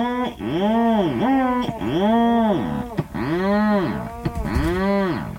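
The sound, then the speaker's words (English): Rhinoceros auklet calling from deep in its nest burrow. A seabird gives a series of long, low, mooing calls, rich in harmonics, each bowing up and then down in pitch. The calls repeat in a steady rhythm, alone. “No, that's the call of the rhinoceros auklet, a seabird deep in its nest burrow.”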